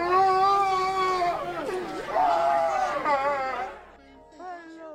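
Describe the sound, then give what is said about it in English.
A grieving father sobs loudly in long, wavering wails whose pitch rises and breaks, fading to quieter broken cries at the end. “That sobbing you hear”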